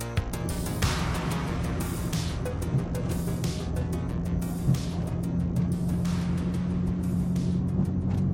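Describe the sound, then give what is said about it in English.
A car drives along a desert highway, its steady engine and road noise forming a continuous low rumble with airy hiss above it. There is no talk. “In the overhead view of the desert, the car moves along a highway.”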